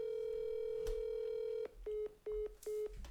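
A dialed telephone call goes unanswered: a faint, steady line tone holds for about a second and a half, then three short, even beeps at the same pitch follow.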